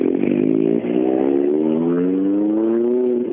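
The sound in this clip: A hand-built car's engine revving, loud and continuous. Its pitch climbs slowly and smoothly over a few seconds.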